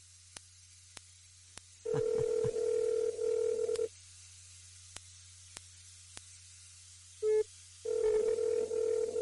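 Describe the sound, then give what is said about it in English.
Telephone call tones play as an internet voicemail service places a call: long steady tones with a short beep between them, scattered faint clicks and a constant low hum underneath. “Your name after the tone, and Google Voice will try to reach.”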